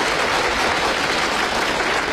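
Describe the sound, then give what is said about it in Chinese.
Sustained audience applause welcomes the first contestant at a stage challenge match. It forms a dense, steady wash of many hands clapping at an even loudness throughout, with no talk over it. “大家鼓掌欢迎。”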